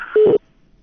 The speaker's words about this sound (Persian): تلفنشان قطع شد. کوشش بکنین دوباره زنگ بزنین، ممکن است تلفنتان رخ شوه.